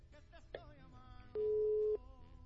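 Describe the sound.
Telephone number being dialed by hand: several short dialing tones and clicks, then a sustained single steady tone for about half a second, followed by a faint line hum.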